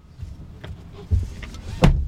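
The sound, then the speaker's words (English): A car drives along a street with a low, steady rumble, broken by a couple of louder thumps as it rolls along. “So, I'm just going to drive along the street where I think Lincoln went missing.”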